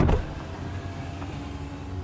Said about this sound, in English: What was that? Shit, she has power windows.